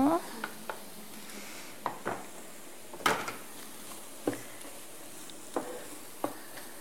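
Carrots sautéing in a pot: a faint sizzle beneath many sharp clacks and scrapes as they are stirred against the pot.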